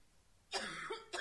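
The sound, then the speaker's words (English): A quiet, dry cough during a lecture. One cough sounds alone against a faint background, and the start of a second follows just after. “Excuse me, I need to get a cough drop.”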